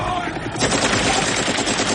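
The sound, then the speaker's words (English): Machine gun fire from a helicopter shooting up water, heard as loud, dense, rapid bursts that start after a quieter half-second and then roll on continuously. “And the Russians from the helicopter shoot up the water in hopes of killing him still.”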